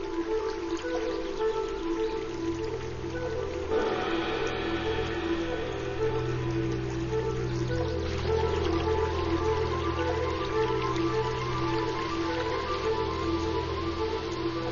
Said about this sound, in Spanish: todos los lagos estarán llenos a rebosar. El agua busca nuevos caminos a través del bosque.